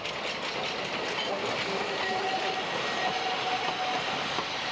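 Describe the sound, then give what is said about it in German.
A museum railway train runs along a 17.6-kilometre line through a small village, making a steady, even rumble of wheels and carriages with faint high squeals that continue unbroken throughout. “Die letzten Meter der 17,6 Kilometer langen Museumsbahnstrecke fährt der Ötscherland-Express durch das Örtchen Lunz.”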